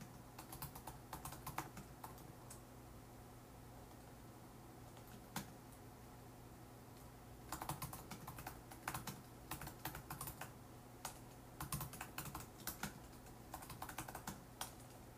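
Typing on a computer keyboard while writing an email reply: faint, clattering keystrokes in quick bursts, a quiet stretch in the middle broken by a lone tap, then denser runs of keys.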